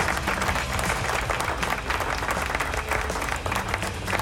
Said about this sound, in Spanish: ¡Aplauso!